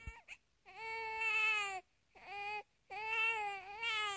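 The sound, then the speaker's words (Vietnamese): A newborn baby crying softly: three drawn-out, wavering wails separated by short silent pauses, fairly faint and with no other voices. “Đột nhiên, Trên Dịch Hòa lại nghe thấy cái tiếng của trẻ con sơ sinh khóc nỉ non.”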